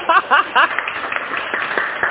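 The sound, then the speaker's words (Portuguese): A church audience applauds a couple, scattered sharp claps building into a loose, uneven patter after a loud voice calls out briefly at the start. “aplausos para o casal! Yeah! Aplausos, gente,”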